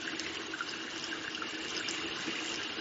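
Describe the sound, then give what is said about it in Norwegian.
Steady running tap water while hands are washed with liquid soap from a dispenser, a continuous even watery hiss with no pauses or voices. “Så tar jeg sæpe fra den flytende dispenseren. Så vasker jeg. Jeg tar først inn i håndflaten.”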